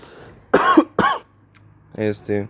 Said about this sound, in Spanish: voy a toser, banda.